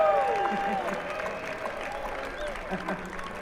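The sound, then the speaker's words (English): Audience applause for a band member at a live performance: a steady, fairly soft patter of clapping with a voice over it. “Let's give Key a sound. Let's give Key a hand out there.”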